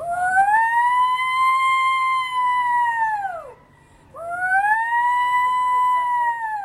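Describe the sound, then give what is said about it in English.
A distress holler, a hollered human call for help: two long, loud, tonal cries, each holding a high steady pitch before sliding down at the end, with a brief silent gap between them. “Another type of holler is called a distress holler. And this is if you were in trouble or hurt. And it sounds like this.”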